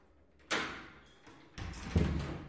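A door being opened: a sudden scraping knock that fades out, then a second, louder stretch of rattling rumble with a low thump near the end.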